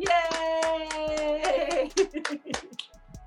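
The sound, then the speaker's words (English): Two people clap their hands together over a sustained tone, with many sharp claps in an uneven, quickening series that grow more scattered toward the end. “So give me a clap. Let's do a little bit. We'll both clap.”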